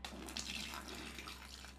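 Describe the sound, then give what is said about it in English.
Coffee being poured into a garbage can: a faint, continuous splashing trickle of liquid that lasts under two seconds and stays even throughout, with no voices. “I have a garbage can here. I didn't just pour that on the floor.”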